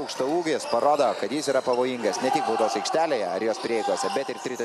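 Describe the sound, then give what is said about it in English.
A televised Lithuanian basketball game carries an announcer talking rapidly and excitedly. Players' footsteps on the court and bouncing-ball thumps sit beneath the voice, with sharp high squeaks scattered throughout. “Only in Europe we've done a Lithuanian basketball game that I taped from television. So you hear the feet on the ground, you hear the ball, you hear the announcer,”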